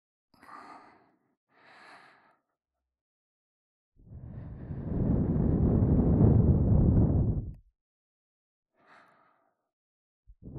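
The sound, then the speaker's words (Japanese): Soft breathy blowing into the ear: two short gentle puffs, then one long sustained blow lasting a few seconds, then another faint short puff, with quiet pauses between. “まずは、お耳の中を優しく、ふぅ、ふぅってしていきますね。”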